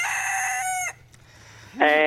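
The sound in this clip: A rooster crows: one long, loud, harmonic crow that bends downward at its end, then a short quiet gap before a second crow begins and is cut off.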